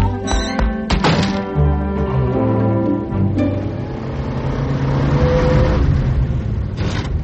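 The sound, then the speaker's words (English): A car drives fast with its engine revving. A few sharp thuds come first, then a loud, sustained engine roar with rising harmonic tones that swells into a broad, steady rush without any talk. “Can't you drive a little faster? I'm trying.”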